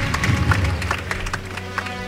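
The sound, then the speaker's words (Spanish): Applause from spectators at a Holy Week procession as the paso is lowered, a dense patter of claps with a low steady drone beneath, gradually easing toward the end. “Pero sí, la gente aplaude. La maniobra.”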